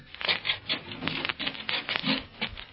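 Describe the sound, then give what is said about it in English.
Shoes scraping on a rough surface to clear off mud, a radio drama sound effect: many brisk, rasping back-and-forth strokes in a quick uneven rhythm, fairly loud, with no talk. “Here we are now. Come on. Scrape the mud off your feet.”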